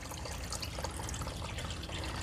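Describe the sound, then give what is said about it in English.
Water drains and trickles off a handmade-paper mould held level after being lifted out of the pulp vat. A steady, dense splashing hiss runs without pause. “And then just lift it up. The whole thing is lifted up, like horizontal. Let it drain for a little bit.”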